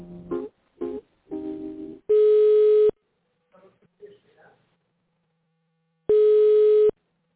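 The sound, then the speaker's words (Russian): A telephone line tone plays while a call is transferred: two long, steady, buzzy beeps about four seconds apart, each lasting under a second. Brief speech-like sounds come before the first beep and between the two. “Алло, я сейчас вас переключу.”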